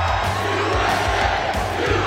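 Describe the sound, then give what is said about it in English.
A big crowd cheers and shouts loudly and without a pause, with a regular low thumping pulse beating beneath the roar of voices. “Wow, this is a nice crowd.”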